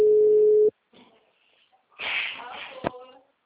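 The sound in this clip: A telephone ringback tone from an unanswered call: one steady, even electronic tone lasting under a second, then a pause, followed by people talking.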